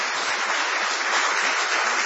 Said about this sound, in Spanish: Vamos a extender el aplauso para saludar a Patricio Barton.